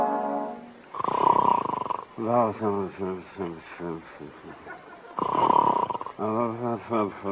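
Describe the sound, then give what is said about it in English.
A man's voice imitates snoring and sleepy mumbling: two rasping, noisy snore breaths separated by stretches of wordless, murmured vocal sounds, fairly loud and heard alone. “Every night it's the same thing, snoring and mumbling.”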